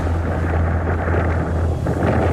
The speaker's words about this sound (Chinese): 我当时在埃奥瓦州，风暴正在形成。我注意到周围突然刮起了狂风。